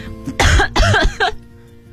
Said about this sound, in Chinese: 还咳嗽了，你看。